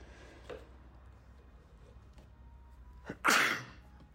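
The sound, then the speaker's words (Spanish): A single sharp human sneeze bursts out near the end, loud against an otherwise quiet background with only faint small noises before it. “Vi una corriente de frío, estornudo.”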